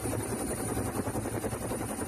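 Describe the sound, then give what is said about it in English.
A Marine Corps 60-series helicopter near a ship's flight deck gives off a loud, steady engine roar with a fast, even rotor throb running throughout. “Looking at a 60 there for Justin. Marine Corps aircraft there.”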